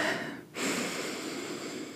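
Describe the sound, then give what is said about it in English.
A deep breath is drawn in and let go, heard as two soft, breathy rushes of air split by a brief pause, the second a long, steady release. “let's take a big breath in”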